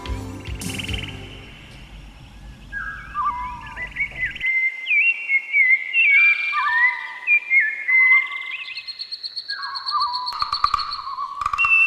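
Small tropical birds chirp and whistle in many bright, high trills and warbling phrases from about a third of the way in, with a low rumble fading out at the start.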